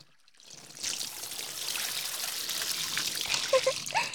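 Hot water is poured over a person's body to rinse it, making a steady, soft splashing pour that runs for several seconds, with a few slightly louder splashes near the end.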